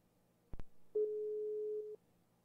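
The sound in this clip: An outgoing phone call rings back with one steady tone lasting about a second. A couple of short clicks come just before it, and the whole sound is faint with no talking.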